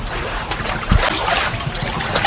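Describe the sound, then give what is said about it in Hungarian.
Water splashes and trickles as a foot-pedalled mill water wheel, driven like a pedal boat, starts turning, a continuous churning wash with scattered louder splashes throughout. “Elindult a kerék, csobog is.”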